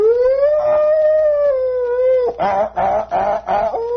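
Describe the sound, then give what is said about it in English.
An emergency siren wails outside a window during unrest in Jackson, Mississippi: a loud, steady, rising-and-holding tone that drops, then breaks into several rough, choppy bursts of wailing. “the emergency sound of the sirens and the horns going past, and people hollering and stones pelting through the windows.”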